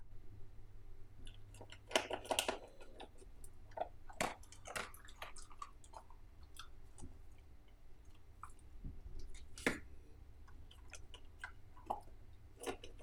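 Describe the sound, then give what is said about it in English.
A pet chewing and crunching its food, with many irregular wet smacks and short clicks at a steady, fairly quiet level. A denser burst of bites comes early, and there is no talk. “Let's finish the episode with just ASMR of Keanu eating.”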